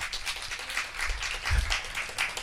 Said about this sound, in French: Par applaudissement, qui a peur de la montée du racisme en ce moment en France?